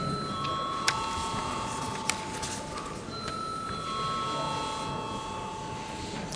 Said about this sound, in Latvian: Lūdzu zvanu.